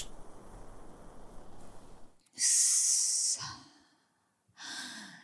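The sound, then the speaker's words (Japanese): Someone smokes a cigarette, with soft breathy rustle at first, then a loud, hissing exhale lasting about a second and a shorter puff of breath near the end. “ついでにさ、ニコチン吸ってもいい？気にしないのは助かる助かる。”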